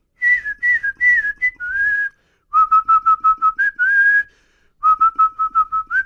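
Someone whistles a rock song tune, a loud clear melody in bursts of short rhythmic repeated notes and a few held tones, separated by brief pauses, heard alone.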